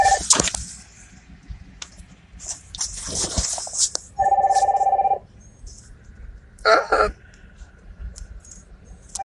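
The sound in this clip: A telephone rings with one steady electronic ring burst midway, set among sharp clicks and short bursts of rustling noise.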